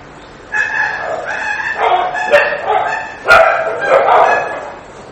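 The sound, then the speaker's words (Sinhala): Dogs fighting and barking: harsh barks and yelps come in a quick run of loud bursts, overlapping one another with barely a gap. “බල්ලෝ රණ්ඩු වෙනවා නේ.”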